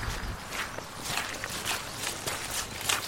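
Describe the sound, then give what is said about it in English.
Footsteps of people walking up a vineyard slope: many soft, scuffing steps at an even pace under a continuous outdoor noise bed. “Can we walk up just a little bit?”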